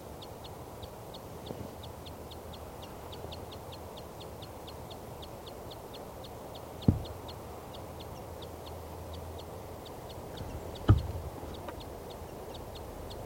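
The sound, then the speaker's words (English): A female bird on her nest in a tree calls in reply to her mate with a long series of many thin, high, evenly spaced notes repeated steadily, broken by two brief low thumps. “That's the female on the nest, responding vigorously to the calls of 395, who's probably her mate.”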